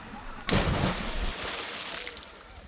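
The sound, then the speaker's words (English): A person plunges into cold spring water at Wakulla Spring. A sudden splash comes early on, followed by a sustained rushing slosh that slowly fades. “Well, to see for myself, I came back to Wakulla Spring. It had been a few decades, and I took the plunge.”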